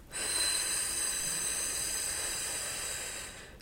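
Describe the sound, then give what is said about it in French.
A person blows air out through the mouth as if at a candle flame, as a breathing exercise: one long, continuous, breathy hiss lasting a few seconds, fairly strong and even before fading at the end. “On peut faire des exercices, par exemple, en proposant de souffler par la bouche et en imaginant que l'on veut éteindre ou faire vaciller la flamme d'une bougie. Donc, on va faire des sons comme ceci.”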